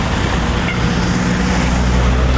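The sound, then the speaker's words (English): A big truck passes on a road near a bus stop, giving a steady, loud rumble of engine and road noise that stays even throughout. “Oh, and there's a big truck coming, but that's not the bus.”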